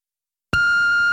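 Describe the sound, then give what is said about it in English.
A single voicemail message beep sounds abruptly after silence. It is a loud, clean, steady high-pitched electronic tone that holds without wavering to the end. “You have a voicemail message.”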